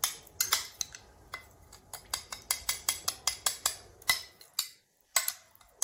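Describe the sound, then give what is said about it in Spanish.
A salad dressed with ground black pepper and lemon is tossed, giving many crisp clinks and taps of utensils in an uneven rhythm, quiet overall, with a brief pause near the end. “Pimienta negra molida. Y limón. mezclamos bien.”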